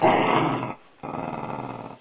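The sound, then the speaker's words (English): Dogs growling, a loud, rough, low rumble held in two sustained stretches split by a brief pause, with no voices. “Stop antagonising the dogs.”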